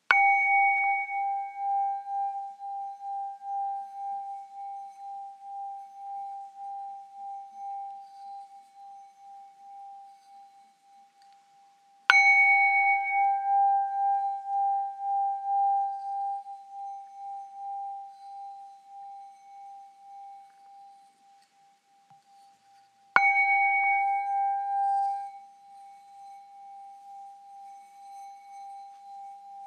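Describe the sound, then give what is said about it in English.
A singing bowl is struck three times during a meditation. Each strike gives a clear, steady tone that rings on and slowly fades before the next strike. “Bring your awareness to the sound of the singing bowl.”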